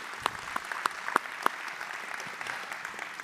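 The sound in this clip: Applause from a church audience welcoming a couple back for a Sunday service: a quiet, even patter of clapping with a few sharper individual claps standing out early on.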